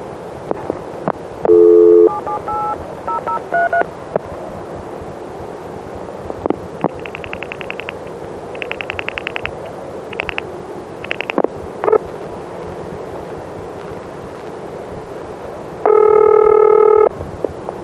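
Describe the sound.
Switching sounds come from a step-by-step office in the General Telephone system as the last four digits are redialed. Short tone bursts and several rapid trains of mechanical clicks are followed by a steady, buzzing multi-tone signal near the end.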